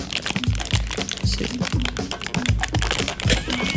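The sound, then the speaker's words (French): Someone pries open tightly wrapped product packaging, producing many sharp plastic crackles, crunches and crinkles in quick, uneven succession. “Ça a l'air difficile à ouvrir en te regardant. Faut que vous compreniez que l'emballage est quand même assez très serré sur le produit.”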